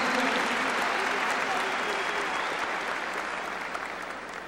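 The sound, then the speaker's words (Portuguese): Steady, dense applause from an audience during a Catholic priest's sermon, with faint voices mixed in, holding at an even level for several seconds and easing slightly toward the end. “Pode aplaudir então, pode aplaudir então.”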